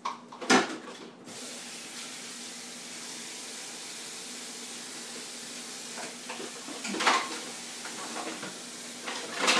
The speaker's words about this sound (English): But first I'm going to rinse this bowl out.